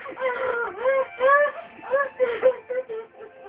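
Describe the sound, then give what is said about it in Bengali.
A grieving woman cries in high, wavering wails and sobs. The phrases rise and fall, broken by short gasping pauses, and they grow choppier toward the end. “দেখুন যে বাবার জন্য কিভাবে কাঁদছে।”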